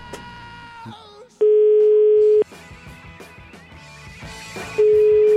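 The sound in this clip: A telephone call is placed and the line rings back with two long, steady single-pitch beeps, each about a second long, separated by a pause. Voices and other sounds fill the gaps between them.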